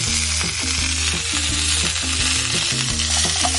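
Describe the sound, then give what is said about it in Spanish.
Butter and onion sizzle in a small skillet set directly on charcoal, a steady bright crackling hiss that runs without pause, with tonal background music beneath it. “y cebollita. Mantequilla y cebolla. A pegar un saborcito.”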